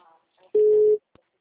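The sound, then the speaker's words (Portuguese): A short, steady telephone ringing tone sounds once on an outgoing call. Faint sounds come just before it, and a small click follows. “Tô ligando”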